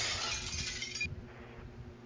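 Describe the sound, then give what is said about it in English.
Glass shattering as a door is kicked in. A loud, bright crash fills the first second, then fades into fainter settling rattles and a low rumble, with no voices. “he just kicked my door in. Oh no. Oh no, glass everywhere.”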